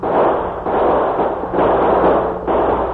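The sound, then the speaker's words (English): Rapid gunfire in a Western shootout as twenty outlaws fire on six defenders holding a mountain pass: a loud, dense, continuous crackle of overlapping shots with no clear gaps between them. “Open fire. There were 20 men with Rufe. There were only 6 with the Lone Ranger. The outlaws rallied around their leader and tried to blast out the defenders of the pass.”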